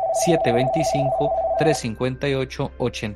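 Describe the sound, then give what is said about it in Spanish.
A telephone ringing for an incoming call, a steady electronic tone held for a couple of seconds before it cuts off, with a person talking over it throughout. “Tenemos una llamada.”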